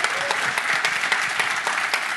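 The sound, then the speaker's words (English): An audience at a gathering before prayer gives a round of applause to welcome a woman to the stage, a dense, steady stream of clapping from many hands. “But I'm going to invite you to give a massive round of applause. Welcome to the stage, Steph, because she's going to tell her story before we pray. So give a round of applause for Steph.”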